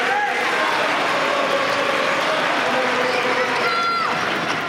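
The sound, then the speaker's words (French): Tennis crowd noise fills Court Philippe-Chatrier as Flavio Cobolli serves against Alexander Zverev in the fourth set, a steady, dense roar of cheering and voices that holds at an even level throughout. “Il est au service et il est soutenu. Écoutez le public du Philippe Châtrier.”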